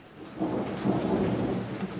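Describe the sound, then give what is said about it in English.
Steady rain showers over maturing cornfields in Mexico in midsummer, a dense hiss of falling drops with low thunder rumbling underneath, loud and continuous throughout. “From midsummer till the end of October, rain showers on Mexico's maturing cornfields.”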